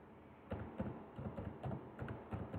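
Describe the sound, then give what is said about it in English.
Muffled computer keyboard keystrokes as a number is typed, several soft clicks in a steady, slightly uneven run over a dull background hiss. “Normally when you type the number,”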